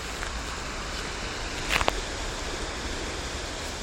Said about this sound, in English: This is the sound of rushing water.